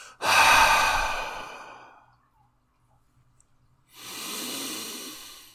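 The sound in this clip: A deep exhale during a breathing exercise: a long, loud, breathy rush of air that fades out, followed by a pause of near silence before another steady breath begins.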